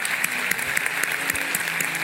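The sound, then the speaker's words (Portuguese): A church audience applauds to welcome new members, a dense, steady patter of many hands clapping throughout. “vamos dar uma salva de palma forte para eles”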